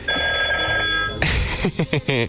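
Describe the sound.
A telephone rings as a listener's second call comes in. Steady, bright electronic ring tones sound loudly for about the first half, then cut off sharply and are followed by talking.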